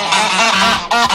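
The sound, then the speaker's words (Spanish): Goose-like honking, a sound between a duck and a goose: a loud, nasal, buzzy honk held for most of a second, then a brief break and a second honk. “No sabemos, es un poco un mix, ¿no? Entre un pato y un ganso.”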